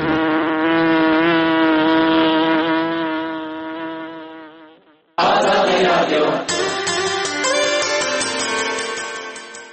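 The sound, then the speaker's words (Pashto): Honey bees buzz around flowering plants grown through the winter, a steady, slightly wavering drone that fades out and then resumes abruptly in a denser, busier texture. “په ژمي کې هم داسې شیان کرل کېږي چې ګل او وده کوي او مچۍ ترې د خپل خوراک او اړتیا وړ شات راوړي.”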